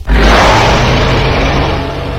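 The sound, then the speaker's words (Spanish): A dragon roar sound effect: one loud, sustained, rumbling roar with a heavy low end. It starts abruptly and holds steady for about two seconds, easing only slightly toward the end. “Es un dragón, es el dragón. Por eso cuando decían, el rugido, yo les decía.”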